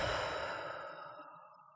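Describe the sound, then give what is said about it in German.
A long, deep breath drawn through the nose during a belly-breathing exercise, heard alone as a quiet, airy rush that fades steadily over almost two seconds. “Wenn du deine Hand auf deinen Bauch legst und so richtig tief einatmest, durch die Nase einatmest, dass sich deine Hand hebt auf der Bauchdecke.”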